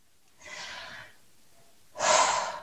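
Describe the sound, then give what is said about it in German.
A deep breath, heard as two broad, airy rushes with a short pause between them. The second rush is louder and fuller than the first, and there is no talk. “Atme, hole tief Luft.”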